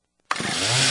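Chainsaw engine bursting into life after a moment of near silence, then holding a loud, steady, rasping buzz for the rest of the brief moment.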